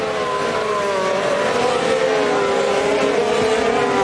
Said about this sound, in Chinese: 现在两辆麦克伦的赛车兰多诺里斯